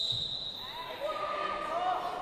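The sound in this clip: A basketball bounces faintly on a suburban court during wheelchair basketball training, soft thuds beneath a speaking voice.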